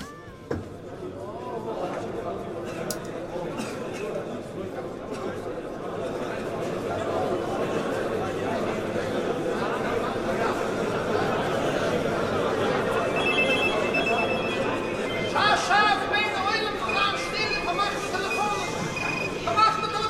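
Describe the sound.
A radio quiz segment jingle cues listeners to call in answers, a busy stretch of about 20 seconds with ringing telephone-like tones and voices, growing brighter toward the end.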